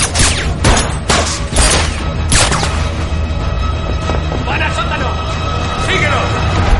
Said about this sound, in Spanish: Lynn corre hacia las escaleras. Dispara a los infiltrados. han dispara a Lynn sin alcanzarle.